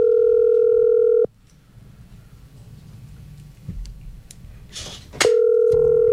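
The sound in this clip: Steady telephone dial tone heard while placing a call to Quibdó in the Chocó department: a loud, even hum that holds for about a second, cuts out to faint low noise, then returns just as steady near the end.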